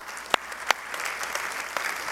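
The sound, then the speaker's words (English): A church audience applauds givers and volunteers with a steady wash of clapping. A few sharper individual claps stand out early on, and no voices are heard. “So I'm going to applaud you.”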